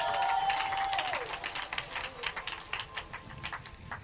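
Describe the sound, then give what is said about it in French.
A church audience clapping: a quiet stream of sharp individual claps that thins toward the end. It opens under a held voiced tone that bends downward and fades. “Acclame Jésus de Nazareth.”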